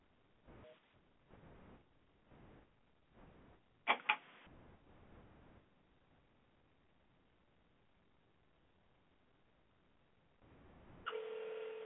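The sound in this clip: Telephone dialing tones on a call-in line, thin and band-limited: a series of short, quiet tone bursts, a brief louder pair of beeps, then a steady tone that starts near the end.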